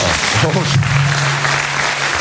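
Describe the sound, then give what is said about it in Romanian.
Audience applause at a Romanian gathering, called for from those very disappointed in Nicușor: a loud, dense, steady wash of clapping that lasts throughout, with a voice heard over it. “Și să aplaud cei care sunt foarte dezamăgiți din Nicușor.”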